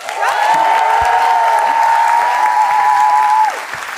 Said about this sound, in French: Vous pouvez applaudir Rita, s'il vous plaît.